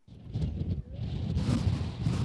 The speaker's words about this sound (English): The wind whips up fast on Mount Bental, a high spot in the Israeli-occupied Golan Heights, with sweeping views into Syria.